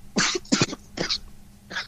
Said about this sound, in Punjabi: ਓਹੋ ਖੁਰੇ, ਹੈਂ ਇਹਦਾ ਆਂਸਰ ਹੈ ਖੰਘ।